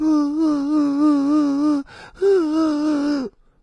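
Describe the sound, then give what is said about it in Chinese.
A voice imitates crying to demonstrate mixed voice in singing: two sustained, wavering wail-like phrases with strong vibrato, separated by a short breathy break, loud and alone. “我们受委屈了，啊，别人骂你了，说你了，你受委屈了，然后你哭，是什么样的状态？”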